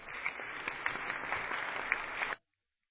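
Applause in a state legislature chamber welcoming fourth-grade students and their parents in the upper gallery: many hands clapping steadily for about two seconds before stopping abruptly into silence.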